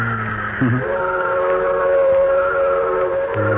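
A freight train whistle sounds one long, sustained, steady tone over a low rail rumble and fades near the end.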